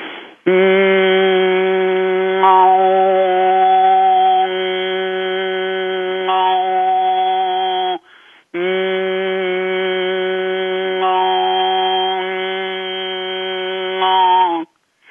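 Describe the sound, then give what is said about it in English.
Overtone singing by a single voice: a steady hummed drone sung through the nose, with a second, higher whistle-like note through the mouth appearing and fading above it, across two long sustained phrases split by a short breath, with a brief murmur from another person. “So I'm going to start with one note through the nose, then I'm going to bring in the note, another second note through my mouth, and then go back to one note, and then back to two”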